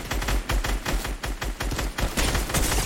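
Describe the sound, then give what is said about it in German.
Rapid gunfire in a video game as a player shoots through an opponent's shield: many loud shots fired in quick bursts, with sharp cracks repeating steadily throughout. “Ich schieße einfach seinen Schutz kaputt.”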